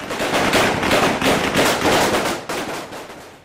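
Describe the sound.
Fighters fire live rounds into the air to break up a street protest, sending out rapid bursts of automatic gunfire. The shots crackle loud and densely packed, then thin out and grow quieter toward the end.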